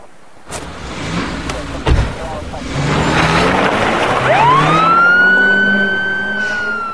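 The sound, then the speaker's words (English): A police car drives off, its engine rumbling as a siren starts up and climbs into a high, steady wail that grows louder toward the end. “Then the police car moves off.”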